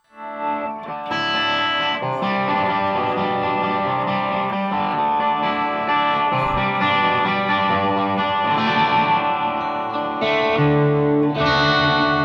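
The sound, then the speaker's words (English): Guitar chords strummed near the bridge give a bright, jangly tone, ringing continuously with a few chord changes throughout. “If you're playing chords and you want a real jingle jangle, try up near the bridge.”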